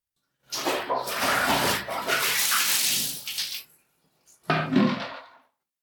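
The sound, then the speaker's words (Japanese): Hot water is poured to rinse soap suds off a body. A long, loud rushing splash gives way to a brief pause, then a second, shorter gush. “全身泡まみれ。もうこれくらいでいいかしら。じゃあお湯で流すわね。”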